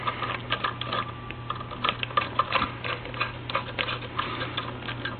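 Clicks of a screwdriver tightening a terminal screw onto neutral wires while rewiring an electrical outlet, with many small, irregular ticks over a steady low hum.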